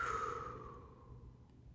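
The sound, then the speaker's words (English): A deep breath out: one slow, soft, breathy exhale, heard alone and fading gradually over nearly two seconds. “First of all, let's take a deep breath in and out.”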